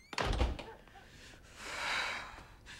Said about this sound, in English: He walks around the kitchen table, then leaves via the back door.